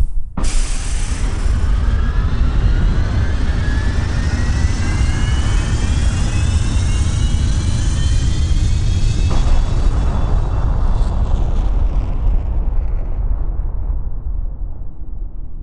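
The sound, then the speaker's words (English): A rocket spaceship blasts off with a sudden loud roar at the start. A sustained deep rumble carries a rising whine above it, and the high hiss thins out toward the end. “5, 4, 3, 2, 1. Blast off!”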